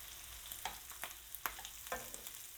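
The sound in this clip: Mushrooms frying in sofrito for a mountain rice with ribs are stirred in the pan: a faint, continuous sizzle broken by several soft scrapes of the spoon at irregular intervals.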